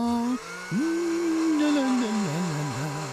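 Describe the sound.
An electric mixer whirs through gingerbread dough spiced with cinnamon, anise, ginger, cloves, cardamom and pepper, a steady motor whine whose pitch dips, rises and wavers as the beaters meet the thick dough.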